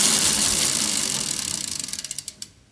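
A spun wheel ratchets through a quick run of clicks over a whirring rush. The clicks come fast at first, then space out and slow as the wheel coasts to a stop.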